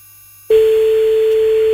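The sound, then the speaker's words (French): After a moment of silence, a steady single-pitched telephone tone starts abruptly and holds loud and unbroken as a call reaches an answering machine. “Bon, c'est de nouveau le répondeur.”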